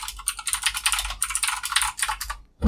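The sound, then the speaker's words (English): Rapid clicking of a computer keyboard being typed on: many quick, crisp keystrokes in uneven bursts, fairly loud and steady throughout, ending with a single heavier thump. “Got to click, edit out of those clicky clickies later.”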